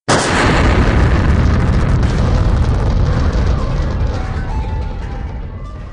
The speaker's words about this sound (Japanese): 手榴弾で、全部吹っ飛べー！